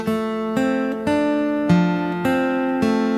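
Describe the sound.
Fingerstyle acoustic guitar with a thumb pick plays a measure built around the F chord. Several clear plucked notes ring with sustained tones, each new note striking fairly evenly over the sustain.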